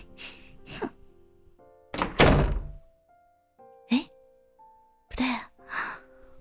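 A door closes with a single heavy thunk on arriving home, with brief vocal sounds before and after it.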